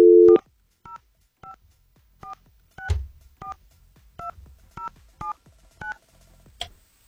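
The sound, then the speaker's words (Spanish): Touch-tone keypad beeps sound as a telephone number is dialed: a series of short, evenly spaced two-note tones with small clicks between them, preceded by a brief low tone. “Creo que sí marqué bien ahora. Muy bien, está sonando.”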